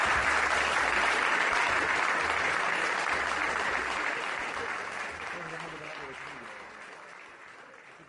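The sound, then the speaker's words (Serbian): Audience applause closes a live poetry evening at the Kolarac hall in Belgrade. Dense, steady clapping holds alone for several seconds, then slowly fades toward the end. “I ja vas molim za kraj još jedan veliki aplauz za Dragana Jovanovića Danilova.”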